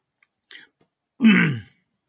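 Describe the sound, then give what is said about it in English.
A person coughing: a short, soft throaty burst, then one louder, rough cough lasting about half a second, alone in quiet. “Of course, I cough in the middle of this.”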